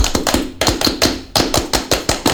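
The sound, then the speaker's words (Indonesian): Rhythmic hand clapping of a Scout clap (Tepuk Pramuka): many sharp claps in a patterned, even beat, broken by a short pause partway through. “Salam Pramuka. Salam. Tepuk Pramuka.”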